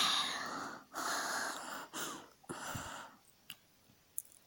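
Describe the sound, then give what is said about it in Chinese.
A woman panting rapidly and heavily: about four long, breathy gasps with short gaps between them, followed by a couple of faint clicks as the breathing eases. “妇人的喘息声变得急促”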